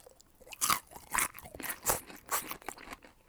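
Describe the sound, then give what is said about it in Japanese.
Someone crunches a homemade cauliflower pickle, producing a run of loud, crisp bites and chewing crunches in an uneven rhythm, alone without talk. “自家製ピクルスもたっぷり入れてもらってますね。カリフラワーね、パプリカなどいろいろ入ってますが、じゃあちょっとカリフラワーって久しぶりに食べますね。”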